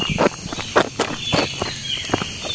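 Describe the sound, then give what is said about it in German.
Footsteps walking through a forest, a few crisp, crunching steps at an unhurried, uneven pace over a faint steady background hiss. “Kennen Sie das auch? Sie spazieren durch den Wald.”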